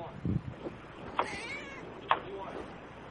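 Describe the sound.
A pet cat meows a few times, short, fairly faint calls spaced about a second apart over a low background hum, with a person talking at times.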